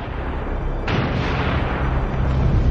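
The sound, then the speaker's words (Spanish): Artillery shells exploding near a bridge over the Rhine under Nazi bombardment: after a low rumble, one loud sudden blast hits, followed by a sustained heavy roar and rumbling. “Empiezan a caer proyectiles en la zona del puente cada 2 minutos.”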